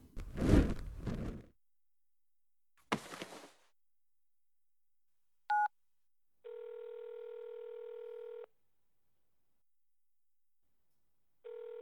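Telephone tones as a call is placed: brief handling noises, then a short high beep, followed by a steady ringing tone lasting about two seconds and, after a long silent gap, the start of the next ring.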